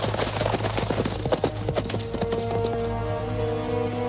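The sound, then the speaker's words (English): Horses galloping away in a film scene, their hooves making a rapid, uneven clatter that is busiest early on and then fades, giving way to a sustained low tone. “The rest of the regulators race off on their horses, and Garrett goes over to see who he's shot.”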